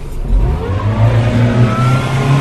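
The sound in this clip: A 200-horsepower rescue motorboat engine accelerates on water, giving a loud, steady, throaty roar that holds strong throughout.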